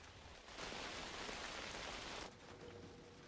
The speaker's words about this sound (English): A shower of torrential rain starts suddenly.